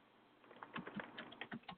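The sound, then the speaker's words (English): Typing on a computer keyboard: quick, irregular runs of light key clicks, fairly faint, with no voices. “while I'm typing”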